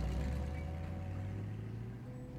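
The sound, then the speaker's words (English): Low, steady engine rumble of a taxi driving off, a droning hum that slowly fades, with no voices. “Mojo's getting in the taxi with her.”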